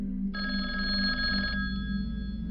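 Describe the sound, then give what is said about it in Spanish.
A telephone rings in a family home, one steady bell-like ringing burst lasting just over a second and then cutting off, over a constant low hum. “A la mañana siguiente, el primero de febrero, la familia Ruff recibió una llamada.”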